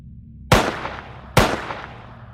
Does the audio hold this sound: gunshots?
yes

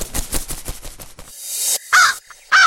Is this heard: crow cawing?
yes

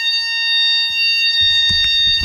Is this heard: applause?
no

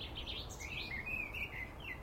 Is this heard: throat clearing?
no

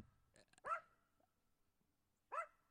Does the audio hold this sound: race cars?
no

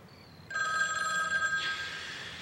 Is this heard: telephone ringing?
yes

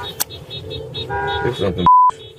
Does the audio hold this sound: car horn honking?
yes

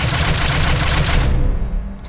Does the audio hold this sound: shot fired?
yes

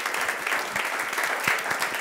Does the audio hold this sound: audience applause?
yes

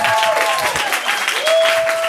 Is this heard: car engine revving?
no

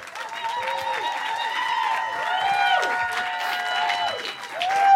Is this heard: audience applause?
yes

